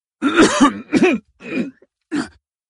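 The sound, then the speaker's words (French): Coughing and throat clearing: four rough, voiced bursts, the first two longer and close together, then two shorter ones after brief gaps, loud and with no speech. “Je toussais et m'éclaircis la gorge.”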